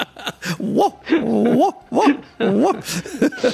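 Whimpering yelps of a cocker spaniel puppy: many short, high, whining cries in uneven bursts, rising and falling in pitch, fairly loud with brief gaps between them.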